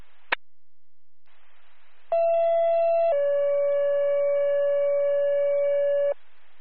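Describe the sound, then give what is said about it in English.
A second set of two-tone radio dispatch alert tones for an ambulance service: a brief click, then a steady higher tone for about a second that steps down into a longer, lower tone held for roughly three seconds over faint radio hiss. “Franklin AMS, second tones.”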